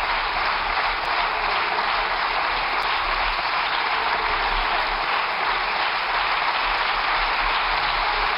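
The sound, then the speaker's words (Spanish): Applause from parliamentary deputies of the Socialist Party and government members fills the chamber: dense, continuous clapping at a steady, loud level throughout, with no voices over it. “con los aplausos de los diputados y las diputadas del Partido Socialista y también los miembros del gobierno.”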